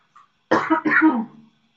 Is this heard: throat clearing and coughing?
yes